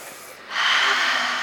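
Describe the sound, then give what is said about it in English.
A big, deep inhalation from children doing a breathing exercise, a sudden breathy rush of air that swells and then holds as a steady hiss, heard alone without talk. “Are you ready? Big deep breath.”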